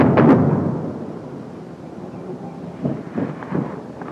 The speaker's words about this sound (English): Close. Airstrike.